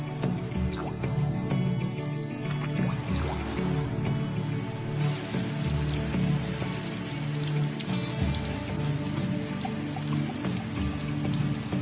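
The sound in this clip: Raindrops falling in a tropical rainforest, a dense, steady patter of many drips and splashes that stays even and continuous throughout without pauses.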